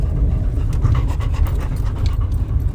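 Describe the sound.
A dog pants in a fast, steady rhythm of many short breathy huffs, continuous and fairly loud, with no talk over it.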